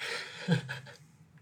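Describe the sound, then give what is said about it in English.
Airy inhale through a terp pen pressed to a dab of concentrate, a soft breathy draw lasting about a second that thins out toward the end. “You press it right to it, and you inhale, and you get a nice dab hit. Hit that dab. Terp pen it.”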